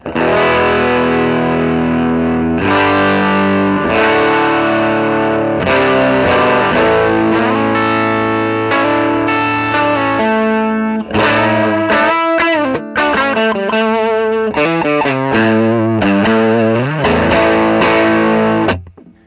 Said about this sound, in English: I don't know if you can hear the difference between the guitars since I'm going through yeah, you know, pedals.